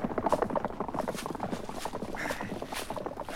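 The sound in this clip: Hooves of horses being driven off and running away, a dense, continuous pattering clatter at a fairly low level with no voices over it.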